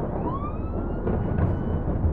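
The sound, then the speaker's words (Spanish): Police patrol car siren wails, its tone rising in pitch and then holding, over a thick low rumble of background noise. “la patrulla que pasó haciendo sonar su sirena”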